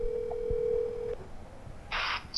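A telephone tone sounds as a steady, single-pitched hum for about a second and then cuts off. After a quiet pause, a brief burst of hiss follows.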